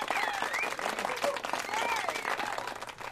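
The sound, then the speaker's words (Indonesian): Lively audience applause welcoming actors at a live Friday story show, dense and continuous for about three seconds, with some voices calling out over the clapping. “Berikan tepuk tangan yang paling meriah untuk S.O. Mehmet.”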